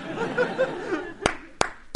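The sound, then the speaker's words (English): Sharp hand claps, the kind used as a signal to quiet a classroom. Three crisp claps land in quick succession after a stretch of soft chatter and light laughter. “A little clap, yeah. What, two claps?”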